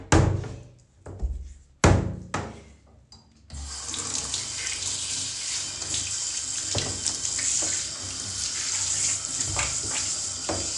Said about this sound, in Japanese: 流してちょっと毛がすごいことになってるけどちょっと一回流して